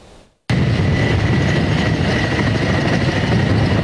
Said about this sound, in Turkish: Helikopterlerin biri gitti, biri geldi.